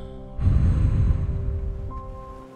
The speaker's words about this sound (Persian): یک دم عمیق بگیرین هوا از بینی وارد میشه و به آرامی و عمیق بازدم کنین